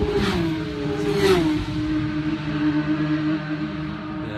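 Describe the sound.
Racing cars roar out onto lap three after a refuelling stop, a loud, steady engine drone whose pitch dips briefly partway through, then holds, with no talk.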